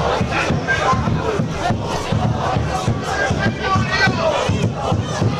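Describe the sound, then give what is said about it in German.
Football fans in a stadium fan section chanting and cheering in a loud, continuous roar, with a steady rhythmic pulse to the massed voices. “Ein bisschen den Sound der Fankurve einzufangen, damit das ein bisschen, damit ihr das hört.”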